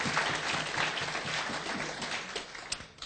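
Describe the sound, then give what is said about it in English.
A church audience applauds, a dense, steady wash of many hands clapping that carries on evenly for about three seconds before thinning slightly at the end. “Give the Lord a big hand, please.”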